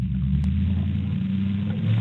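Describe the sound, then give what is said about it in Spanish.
A car engine being raced gives a deep, steady low rumble that stays loud and even throughout, with no talking. “¿quién está echando carrera ahí en el carro?”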